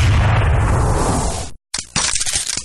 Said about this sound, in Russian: Раздался выстрел, из печи вылетело черное облако сажи.